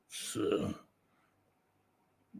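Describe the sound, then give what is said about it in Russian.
A single loud, harsh cough or throat-clearing burst lasts under a second, followed by near silence and a brief faint sound at the very end. “я прошу прощения за кашель”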